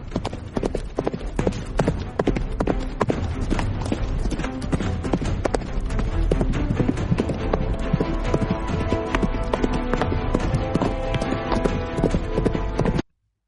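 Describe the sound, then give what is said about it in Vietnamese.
Horses gallop out of a forest, a black horse leading two others, their rapid, overlapping hoofbeats drumming loudly and continuously before cutting off abruptly. “Nghe tiếng chủ nhân thì Hắc Công Tử dẫn hai huyết mã từ trong rừng phi nước đại ra, đón ba người rồi tăng tốc hết cỡ lao về phía tây nam.”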